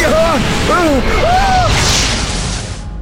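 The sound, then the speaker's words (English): A roaring fireball blast in an audio drama tears through as a broad, rushing burst that swells loudest near its middle, layered over voices crying out and a rumbling background. “Remove our weapon! Use it, Kelvin! Try shooting it at her! It's a fireball! Stop it! Stop it now!”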